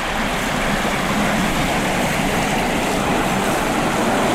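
Steady outdoor ambience beside the paved road leading to the Bouillouses lake in the Pyrenees mountains, a continuous broad rushing wash with no distinct events standing out.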